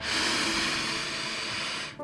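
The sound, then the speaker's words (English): A single long, deep inhalation during a guided breathing exercise, a steady airy hiss drawn in for nearly two seconds before cutting off abruptly. “One more time. Deep breath in”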